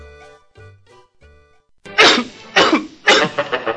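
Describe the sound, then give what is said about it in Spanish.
A person coughs three times, each cough loud, harsh and explosive. Short, low, voiced throat sounds come just before the coughs. “Evita la tos con pastillas Penetro.”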